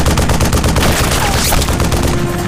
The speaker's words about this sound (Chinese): 继续射击。